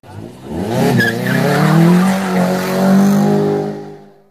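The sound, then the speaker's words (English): Car tire squeal, a loud screeching tone that climbs after a quick onset and holds for about three seconds with engine noise beneath before trailing off, heard on its own. “lights the fires and squeals the tires”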